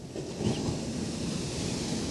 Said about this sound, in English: And the waves are not so ferocious.